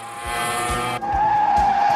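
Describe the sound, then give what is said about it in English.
A motorbike sets off with a loud engine roar. Partway through it switches to a steady, piercing high whine, with faint rhythmic thumps underneath. “Archie and Ken set off on his motorbike.”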